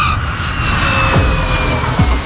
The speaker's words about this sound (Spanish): Un avión Airbus A320 operado por la aerolínea de bajo coste húngara Wizz Air aterrizaba en el aeropuerto internacional Al Maktoum de Dubái, procedente de Budapest.